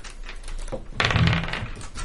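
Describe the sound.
Dice clatter and rattle across a surface, rolled for a charisma saving throw in a tabletop role-playing game, with one short burst of clicking clatter about halfway through.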